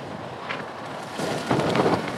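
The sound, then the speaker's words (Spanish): Wind blows across the microphone as a dense, rumbling, hiss-like noise that grows louder and gustier in the second half. “Uy, uy, uy, el viento.”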